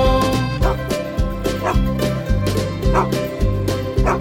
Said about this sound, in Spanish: Y en esa granja tenía un perro, ia, ia, yo. Con un guau, guau aquí, guau, guau allá